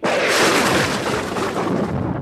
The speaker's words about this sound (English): Is that a bomb or a splash? No, it was really thin thunder. Thin thunder? Yeah, it was weak.